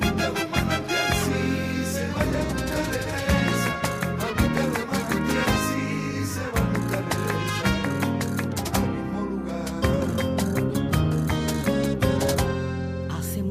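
A sevillana-style song backed by a mariachi group: dense, continuous music with bright layered instrumental tones and a driving, rhythmic accompaniment at a steady, full level throughout.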